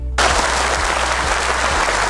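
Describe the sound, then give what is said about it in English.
A round of applause for the winner of a small Connect Four party game. Dense, even clapping starts abruptly after a brief moment and carries on steadily at full loudness for about two seconds. “So the winner of our little game tonight of Connect Four, the round of applause goes to the winner of this very little party game tonight.”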